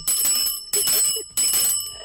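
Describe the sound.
A bell rung by hand in a studio gives three bright, metallic bursts of ringing at an even pace, each one sustained and loud before it fades, with no talk over it.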